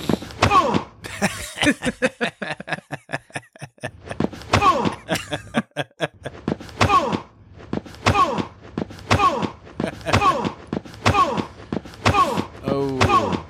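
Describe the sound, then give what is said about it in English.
A sound effect of Archer being punched in the gut: a long string of many heavy thumping blows, each paired with a voiced grunt, repeating in a steady, punchy rhythm. “Archer getting punched in the face. Well, we got one of Archer getting punched in the gut.”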